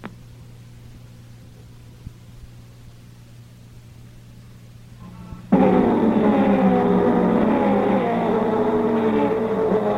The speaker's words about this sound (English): switch live to the auto racing track at Riverside, California for Monitor's newest feature, World of Wheels, with Keith Jackson